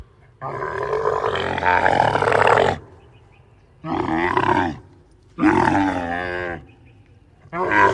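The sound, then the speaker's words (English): A camel sound effect: four long, guttural, groaning bellows separated by short pauses, the first one longest and the last cut off at the end. “That was actually camel sound effect from YouTube.”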